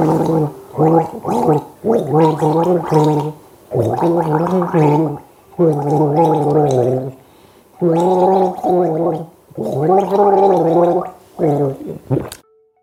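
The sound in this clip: A person gargles a song melody. Bubbling, pitched gargled phrases come in several loud bursts separated by short pauses, with the tune carried by the wavering gargle.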